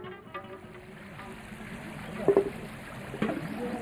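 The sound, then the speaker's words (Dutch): Clear river water flows through a village with a faint, steady rushing trickle. A few brief, louder splashes or knocks rise above it. “Dwars door het dorp stroomt een rivier met helder water.”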